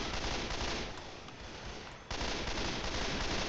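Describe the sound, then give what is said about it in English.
Rapid gunfire in the video game Left 4 Dead 2 forms a dense, continuous rattle of shots that eases slightly in the middle, then surges back at full loudness. “Probably should not step in front of the fucking bullet fire, Quentin.”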